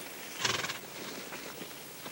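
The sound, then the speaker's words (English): A horse gallops past: faint, quick hoofbeats run under a soft, noisy background, with a brief quivering whinny near the start. “The hired hands and two of the women rush to the horse's side. Joey, McDonald's wild-haired daughter, gallops up to Saul.”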